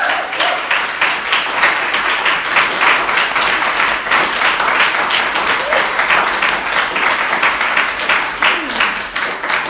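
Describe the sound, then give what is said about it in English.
Audience applause breaks out after someone shares a personal story on stage: dense, steady clapping that holds at an even level for the whole stretch. “How about another round of applause?”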